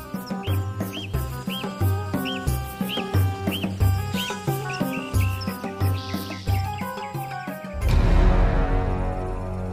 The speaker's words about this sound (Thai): เฮ้ยรำคาญไอ้นกพวกนี้เหลือเกินเสียงดังจอกแจ๊กจอแจอยู่ได